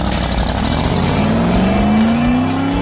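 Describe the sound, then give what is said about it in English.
A 1965 Shelby Cobra race car accelerating, its engine a loud, continuous roar whose pitch climbs steadily through the second half, with no voices. “Now holding at pole position, going pedal to the metal, behind the wheel of his 1965 Shelby Cobra”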